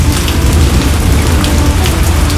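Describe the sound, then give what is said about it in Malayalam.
Steady rain falls on a village house, heard from its veranda: a dense, continuous hiss that stays loud and even throughout, with no voices. “അടുത്ത ഗ്രാമഭംഗിയിൽ ഇനി എന്ത് എന്ന് ആലോചിച്ചിരിക്കുമ്പോഴാണ് വിശേഷങ്ങളുമായി മഴയെത്തിയത്. അപ്പോൾ ഇന്നത്തെ വിശേഷം മഴ തന്നെ.”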